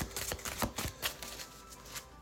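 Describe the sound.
Oracle cards from a Japanese deity deck being shuffled and one card drawn, a faint run of soft papery rustles and a few crisp flicks with no voices.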